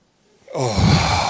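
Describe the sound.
A group of people exhale together after stretching their arms up and rising onto tiptoes during a church gathering. After a quiet half second, a loud, broad, breathy whoosh swells in and holds steadily to the end.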